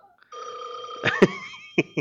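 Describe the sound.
Telephone ringing sound effect, a steady, bright electronic ring tone sustained for over a second, cut by a few sharp clicks.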